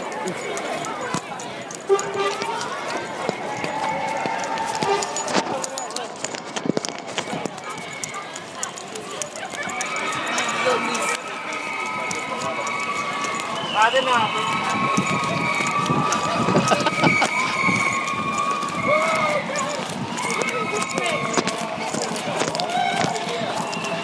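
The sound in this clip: Rapid running footsteps in a video game, a quick, steady stream of footfalls over a dense, continuous wash of game sound.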